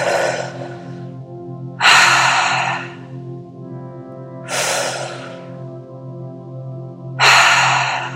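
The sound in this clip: Deep breathing during a breathwork exercise: four loud, airy breaths at slow, even intervals, each rushing in and trailing off, over a soft, steady sustained tone.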